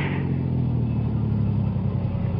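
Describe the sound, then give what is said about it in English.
A car engine rumbles as the car stops at the start of a steep grade: a low, steady, continuous drone at an even level throughout, with no voices. “And then, at the beginning of a steep grade, I stopped the car.”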